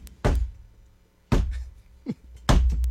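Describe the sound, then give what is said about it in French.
Three heavy, booming thuds of a stick strike the floor to announce the start of a theatre show. Each loud knock is separated by a pause of roughly a second, with no voices over them. “Des trois coups de bâton, ça prend ça.”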